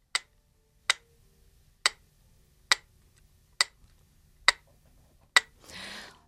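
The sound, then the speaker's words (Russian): A real mechanical metronome ticks seven times, each tick a crisp, sharp click at an even pace of a little under one per second, followed by a brief soft rustling noise at the end. “это звучало не запись, а действительно Елена Владимировна принесла с собой метроном настоящий”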